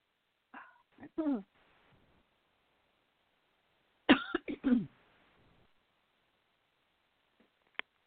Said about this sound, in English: I think we both had a tickle in our throat at the same time